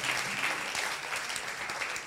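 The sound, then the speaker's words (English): A crowd applauds a woman in the audience with dense, steady clapping. It holds at an even, full level from start to finish with no pauses. “Rise to your feet. A round of applause for her. Oh, a round of applause.”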